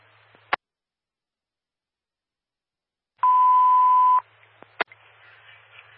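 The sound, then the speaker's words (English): A malfunctioning alarm gives a single steady, mid-pitched beep about a second long, set between sharp clicks over a faint background hiss. “Hold 247 for an apparent malfunctioning alarm.”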